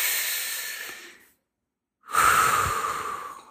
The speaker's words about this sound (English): I want you to put your hand on your chest, and I want you to just breathe with me here real quick.